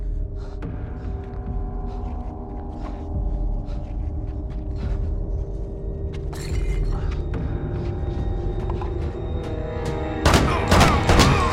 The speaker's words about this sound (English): stands and puts three bullets in his back. He falls to the ground.